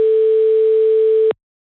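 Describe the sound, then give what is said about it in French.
A telephone line tone heard while placing a call: one steady, continuous electronic hum that holds level for over a second, then cuts off abruptly into silence. “On appelle quelqu'un. On appelle. Alors ça peut ne pas marcher.”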